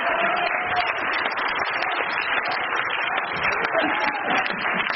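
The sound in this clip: A church audience applauding fast, a dense, continuous patter of clapping that fills the whole stretch, with voices mixed in.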